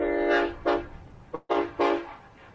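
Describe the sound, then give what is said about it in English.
A horn honks in a series of short, blaring tones with a strong harmonic ring, at a place with many trains nearby. A brief drop to near silence falls midway through the run of honks. “I'm honking my horn.”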